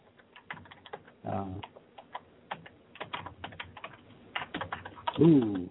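Typing on a computer keyboard: many quick, irregular clicks and taps arrive in uneven bursts with short pauses, clear and fairly loud throughout.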